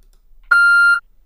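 A single electronic beep sounds from an answering machine just before it plays three new messages. The steady mid-high tone lasts about half a second against near silence.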